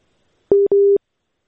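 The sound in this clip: Telephone busy tone after a dropped call: two short, loud, mid-pitched beeps in quick succession, steady in pitch and sounding alone against silence.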